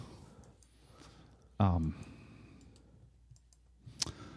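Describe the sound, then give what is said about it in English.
A single sharp computer mouse click to reload a web page, brief and fairly quiet, coming near the end while people talk. “Let me just click reload.”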